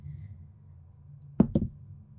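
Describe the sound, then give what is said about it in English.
A twenty-sided die is rolled during a tabletop game, making two quick, hard knocks in close succession against a surface. A faint low hum plays before them, and it is quiet afterward. “Roll me straight D20.”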